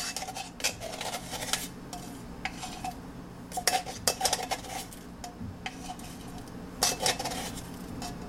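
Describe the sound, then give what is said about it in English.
Faint clinks, taps and scrapes of teaspoons against a bowl as two teaspoons of baking powder go in, with scattered sharper metallic ticks over a soft steady rubbing. “so now we're adding in the baking powder. Uh-huh. So that's 2 teaspoons.”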